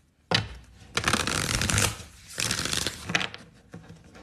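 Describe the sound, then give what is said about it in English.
Tarot cards being shuffled, with several crisp bursts of rapid flicking and riffling, a sharp start followed by busy fluttering passages and brief pauses, no talk over them. “we're going to see in the cards. But since he ain't want to tell me, we're running the cards on Alan.”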